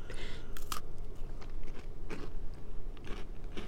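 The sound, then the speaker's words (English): Crisp, crunchy bites go into a white chocolate hand-dipped double stuffed Oreo with Christmas sprinkles: a few sharp cracks mixed with softer chewing and crackling, faint and heard alone. “we have a white chocolate hand dipped double stuffed Oreos with Christmas sprinkles. Oh my gosh, it looks so festive. I'm almost afraid to bite into it.”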